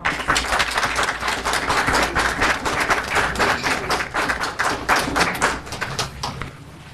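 An audience claps in sustained applause, a dense, continuous patter of many hands at a steady level that eases slightly toward the end.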